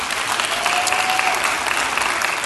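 Audience applause at a church service welcoming gap-year students and their parents. The clapping is dense and even and holds at full volume throughout.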